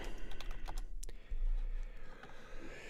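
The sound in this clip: Rapid typing on a computer keyboard: many quick, light clicks in an uneven but steady stream, with no voices.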